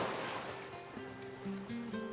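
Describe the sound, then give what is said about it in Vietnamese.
A waterfall sends out a steady, soft rush of water, an even wash of noise that stays level throughout, with faint sustained musical tones beneath it. “Tiểu hồ ly ngồi dưới thác nước ôn hòa thiền định.”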